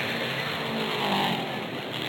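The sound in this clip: A race car pulls away from the pit lane after a pit stop, a steady, loud, broad engine roar that swells slightly midway and then holds level.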